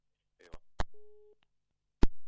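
A telephone busy tone sounds after a dropped call: one steady mid-pitched beep lasting under half a second, set between sharp clicks and thumps from the line.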